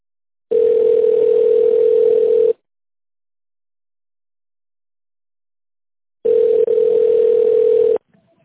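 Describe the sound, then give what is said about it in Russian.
A voicemail signal tone plays before a message is recorded: two loud, clean, steady single-pitch tones of about two seconds each, separated by several seconds of silence. “Также можете оставить голосовое сообщение после звукового сигнала.”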